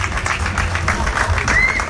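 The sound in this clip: Brief, small round of applause at a port wine tasting event: scattered light claps at irregular intervals over a low steady background rumble.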